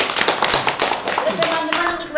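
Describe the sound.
Audience applause for a host at a community discussion gathering held in a private home: brisk, dense clapping runs throughout, with voices and a raised cheer mixed in.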